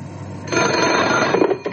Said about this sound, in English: When the telephone rang, I thought it might be my ex-wife.